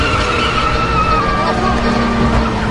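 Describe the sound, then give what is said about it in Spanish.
A car shifts into reverse and drives away, its engine giving a steady, continuous rumble throughout. “Ella mete la marcha atrás y se aleja.”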